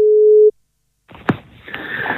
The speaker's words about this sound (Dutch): ik ga nog een keer bellen.